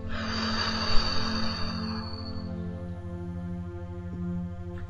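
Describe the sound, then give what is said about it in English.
A deep breath, in through the nose and out through the mouth: a long, airy rush of breath, loudest early and then fading, over a soft, steady musical drone. “Go ahead and take a deep breath in through your nose, out through your mouth.”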